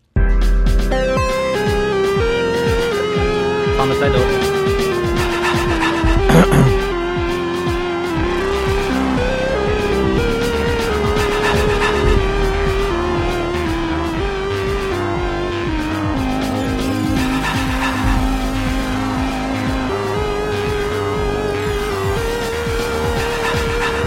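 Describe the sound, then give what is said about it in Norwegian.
A talk show jingle plays as loud, continuous music with a clear melodic line, lasting without pause from start to finish. “Så kjør talkshow jingle. Så nå vi I gang med talkshow.”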